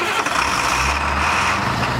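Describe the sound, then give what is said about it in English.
A diesel school bus engine running, with a steady low rumble and a coarse, throbbing drone throughout. “riding the school bus. Districts across the country are trying to make bus rides sound less like this”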